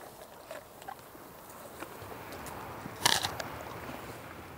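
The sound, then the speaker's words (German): Crunching and biting of German Angus cattle chewing stored apples from an orchard farm: faint, scattered crisp crunches over a soft background, with one sharper, louder bite near the middle. “Die Lageräpfel von ihrem Obsthof schmecken den Deutsch-Angus-Rindern offenbar richtig gut.”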